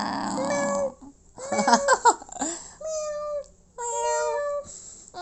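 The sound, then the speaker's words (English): People imitate cat meows, producing several squeaky, drawn-out meow-like calls with wavering pitch, and short bursts of laughter break in around the middle. “Why are we doing cat noises on the podcast? You started it.”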